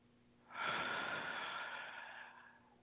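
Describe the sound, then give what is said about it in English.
A deep inhale during a guided breathing exercise: one long, breathy draw of air that starts suddenly, swells quickly and tapers slowly over about two seconds. It is heard alone, with no talk. “Now let's take another deep breath.”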